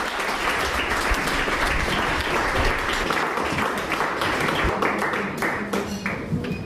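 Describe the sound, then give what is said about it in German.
Audience applause at a German literary reading with musicians, a dense, loud wash of clapping that stays steady throughout with no voices. “Darum bitte ich jetzt gleich um einen kräftigen Applaus für Jürgen Osterlo und Jan Behrens.”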